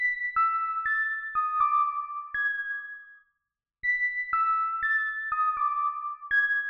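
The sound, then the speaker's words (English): Melodic synthesizer line from an Albino 3 soft synth with a modified Onyx preset and no effects, playing clear bell-like plucked notes in two matching phrases separated by a brief silence. “The next sound down in the arrangement is also from Albino 3 by Rob Papen, where I modified the Onyx sound a little bit. It makes up the melodic component of the verse.”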